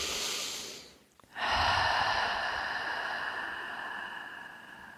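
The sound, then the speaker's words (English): A deep breath taken in and out, heard alone: a breathy airy sound dips to near quiet, then a long, loud exhalation follows and slowly tapers away. “Taking a deep breath.”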